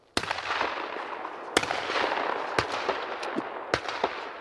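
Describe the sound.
Shotgun fire at clay target shooting in a snowy field surrounded by pine trees: four sharp, sudden cracks spaced about a second apart over a steady, noisy background.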